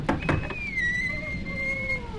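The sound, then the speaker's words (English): A few quick knocks on a hotel door, followed by a long, high, wavering creak. “Maybe we should knock first.”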